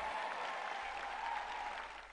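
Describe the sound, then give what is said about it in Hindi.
Audience applause during a sermon gathering: dense, steady clapping from many hands at an even, fairly loud level for about two seconds, easing slightly at the end, with no talk over it. “का तू गौर कैला कि कैसे सब केहू ताली बजावलन।”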